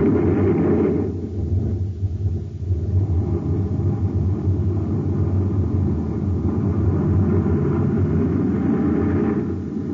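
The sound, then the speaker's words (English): Rocket engines fire at blast-off in a loud, continuous low roar that stays heavy and unbroken throughout, with no voices. “Ready, Doctor? Yes, Commander. Fire rockets.”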